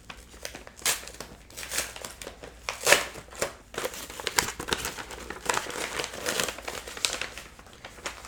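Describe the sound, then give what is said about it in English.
Papers rustle and crinkle as a fat manila envelope is opened and its contents are pulled out. The crackling, shuffling sheets come in many uneven bursts, with a louder crinkle near the middle. “Okay, so I'm just trying to pull things out of this manila envelope.”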